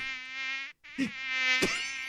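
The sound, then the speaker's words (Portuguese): A voice imitates buzzing mosquitoes with a sustained, nasal, high-pitched whine. The buzz drops out briefly near the middle, then resumes with two short, sharper accents. “Os pernilongos vinham pra cima dele e os pernilongos tudo.”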